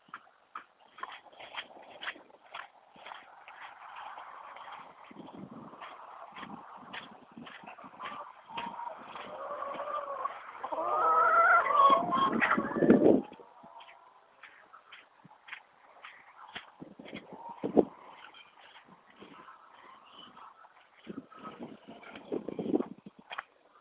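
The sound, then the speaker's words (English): Irregular clopping steps and scuffs from walking back through a farm barn while the cows and horse are out, a busier stretch of rustling in the middle, with no talk. “Yep, cows and horse are out there. So I'll walk back through the barn. You can hear the sounds of the farm.”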